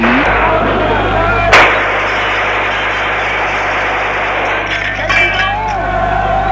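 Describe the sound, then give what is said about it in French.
Army gunfire at protesters: one sharp, loud report cracks out early above a dense, continuous roar of noise that persists through the whole stretch. “l'armée tire sur les manifestants.”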